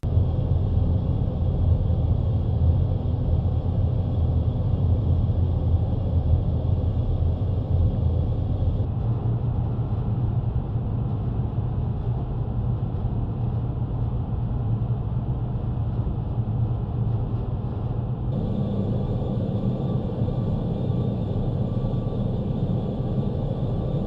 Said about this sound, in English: have you ever spent time inside a furnace, in several places in the ductwork? Well, here's your chance.